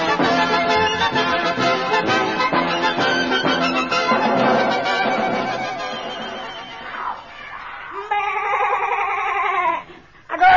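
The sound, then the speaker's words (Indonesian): A voice imitating a goat's bleat, a wavering, quavering nasal tone near the end, after several seconds of dense, busy sound. “Kau kambing, kau harus mengembet.”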